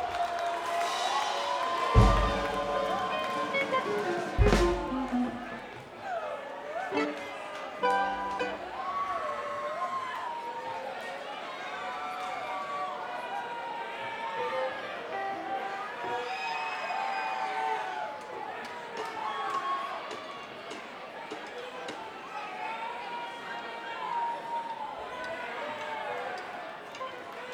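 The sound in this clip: A concert crowd cheers and whoops for a band, layered voices shouting in rising and falling calls over a continuous roar. Two sharp low thumps stand out early on, and the cheering stays at a steady level throughout.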